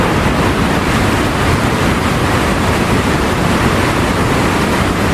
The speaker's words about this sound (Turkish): Görüntüler Arjantin'le Brezilya sınırındaki Iguazu şelalelerinden.